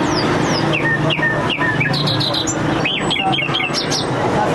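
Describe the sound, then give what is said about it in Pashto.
Wild birds chirp at a wild bird market in Kandahar city, where bulbuls, chukars, mynas and other birds caught in mountain and forest areas are sold. Many sharp, high tweets and whistles overlap continuously above a steady background din. “دا د کندهار ښار په منځ کې د وحشي مرغانو د پیر او پلور بازار دی. دلته پلسکونه بیلابیل ډول وحشي مرغان لکه بلبلان، جلان، زرکی، میناوی او نور چې په غرنیو او ځنګلي سیمو کې نیول سوي پلورل کیږي.”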